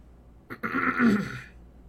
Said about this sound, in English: Behind me, somebody cleared his throat.